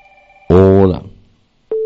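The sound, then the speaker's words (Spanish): A telephone call cutting off: a faint steady line tone, then a short burst of a voice, a moment of near silence, and finally a sudden steady electronic tone at the end. “Bueno, se cortó la comunicación. Se cortó la llamada.”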